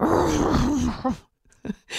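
A person imitates a dog groaning as it stands up on a hardwood floor: a long, low, wavering vocal groan followed by a few short grunting breaths.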